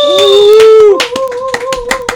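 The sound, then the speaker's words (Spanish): Hand clapping in a radio studio: sharp claps start about one second in, each one distinct and loud, over a steady ringing tone that runs throughout. “Un aplauso para el Colunga.”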